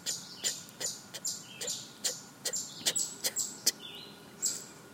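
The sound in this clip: A bird sings in a series of short, bright, high-pitched chirps repeated at an irregular, quick pace over faint background hiss.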